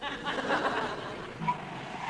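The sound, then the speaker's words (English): A man's voice imitates a petrol pump at the Brands Hatch circuit, making a steady, throaty whirring drone that runs the whole time, with a brief brighter tone rising out of it near the end. “I shall stick my finger in my ear and do my impression of a petrol pump.”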